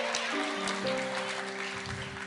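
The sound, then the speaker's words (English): Audience applause for a performer's family, a dense, steady patter of clapping that continues throughout under sustained held tones. “Y'all better clap for my family.”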